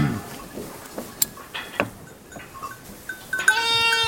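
Sheep bleat on a farm where lambs were recently born. Scattered clicks and knocks lead up to one loud, drawn-out, strongly harmonic bleat at the end.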